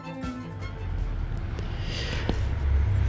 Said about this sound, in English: You can hear a truck passing by right now.